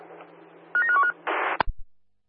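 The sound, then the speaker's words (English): A telephone being dialed to call an office: a quick cluster of keypad tones, then a short noisy burst and a couple of clicks before it falls silent. “Call the office, please. Yeah, we'll dial right now.”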